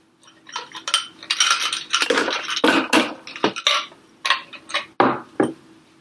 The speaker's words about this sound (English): And now I'll add the ice.